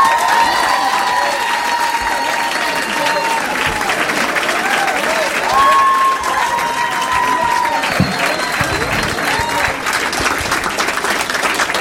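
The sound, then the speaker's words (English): Loud, steady applause and cheering from a stand-up comedy audience on a Saturday night in Minneapolis as a comedian is introduced, with whistles and whoops over continuous dense clapping throughout. “Please make some noise for Matt Kirshen.”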